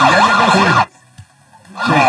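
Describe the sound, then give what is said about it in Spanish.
A wailing siren sounds in two loud bursts with a quiet gap between them. Its pitch sweeps up and down in a wavering pattern. “No, ¿qué le va a poner sirenas a la llegada de Mourinho, por favor?”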